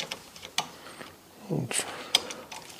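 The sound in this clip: Faint clicks and small mechanical ratcheting as a screw is fitted and snugged into a 2024 Elevate bow during assembly, with a few sharp ticks scattered across quiet handling noise and a brief low rustle.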